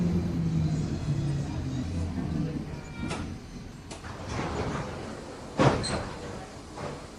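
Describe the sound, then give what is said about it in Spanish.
Doors of a crowded commuter train running from Naples to Herculaneum slide open: a few sharp clunks and swishes, the loudest near the end, over a low steady rumble. “Se abren las puertas y los turistas se apean de los vagones”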